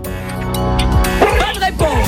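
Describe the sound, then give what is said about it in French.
A dog barks and yips a few times in short bursts, partly under a man talking over it; the barks are fairly loud and punchy against the voice. “C'est un chien derrière.”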